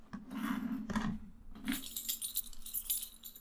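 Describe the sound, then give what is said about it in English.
Quiet, irregular clicks and light rattling from someone typing on a computer keyboard, a few sharp taps followed by a faster run of small clicks, with no talk. “It's the sound of keys? Have you ever typed on a keyboard, my man?”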